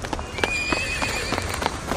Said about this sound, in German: Die Reiter sind super nett. Zwei von ihnen reiten bereits schnell über den Platz.